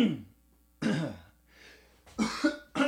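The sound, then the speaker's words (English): A person clears their throat in a few rough, raspy bursts separated by short pauses. The sound is fairly faint. “Cleared out. Cleared out. There's something in my throat.”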